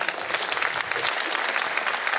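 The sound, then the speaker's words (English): A church audience applauds after a prayer: thick, continuous clapping at moderate loudness, steady through about two seconds. “Let's give God a round of applause.”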